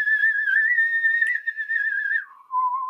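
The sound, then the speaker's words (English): A person whistles in imitation of a slide whistle, holding a clear, pure tone that wavers slightly. The pitch then drops abruptly, and after a brief gap a final lower note follows. “So it's like the slide whistle coming up and down”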